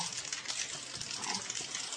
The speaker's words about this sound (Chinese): 那这个三个素材全部加完了，那我们就要去搅拌了。 用摇的。 对，那用摇的。那摇的话那就很简单。